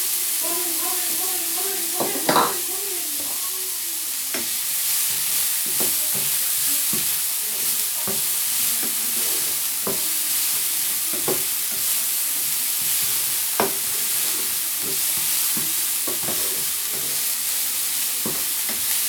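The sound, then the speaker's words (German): Onions frying in fat in a pan that earlier held meat: a constant loud sizzle with many small crackles and pops, plus occasional stirring scrapes throughout. “Fett in der Pfanne jetzt noch ein paar Zwiebeln rein. Ich brate die mal so ein bisschen an hier.”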